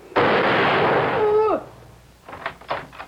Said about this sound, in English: Get off these grounds or I'll put a pistol ball through you! By God, that does it!